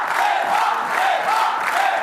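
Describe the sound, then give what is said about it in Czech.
A crowd chanting a name at an election-night celebration in the Czech Republic: a dense, continuous roar of many voices with loose rhythmic swells, loud throughout. “To, co slyšíte, je skandování Eva, Eva.”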